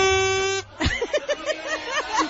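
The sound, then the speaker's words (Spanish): A short, loud, steady-toned blast on a handheld plastic horn (corneta), blown to celebrate during a Mexico football match, followed by a voice. “pues México va ganando y yo traigo aquí mi pito. ¿Cómo se dice? Pito, ¿no? No, es una corneta.”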